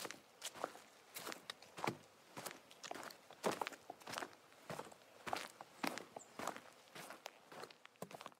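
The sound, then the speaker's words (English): Footsteps of a group of people walking by. Many soft, steady steps overlap in an even rhythm, faint and continuous, with no talking. “And there are a bunch of people walking by, so I think we might have to stop for a second.”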